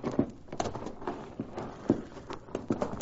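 Hooves of horses being ridden away, a faint, irregular clip-clop under a soft background hiss, with no voices.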